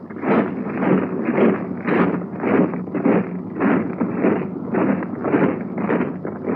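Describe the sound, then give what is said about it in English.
Rhythmic tramping of men marching in Fearless combat boots, a steady, even cadence of many crunching footfalls repeating about twice a second with no voices. “Do you know in what type of boots those men are marching? Why, the new Fearless combat boot.”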